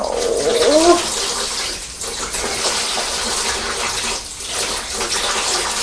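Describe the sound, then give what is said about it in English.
Water runs steadily from a tap as hands are rinsed, a continuous broad gushing hiss throughout, with a brief high squeaky vocal sound near the start. “Let's rinse your hands.”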